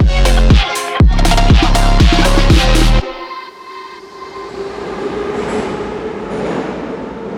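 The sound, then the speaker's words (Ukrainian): Metro train at Derzhprom station: about three seconds of loud, pulsing horn-like tones, then a steady rumbling roll with hissing noise as the train runs. “Рушаємо з нами. Це станція «Держпром».”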